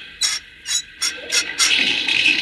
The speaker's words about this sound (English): as soon as I set the water pipe into the boiler, you can turn the spigot. There. Now the water will go into the engine boiler.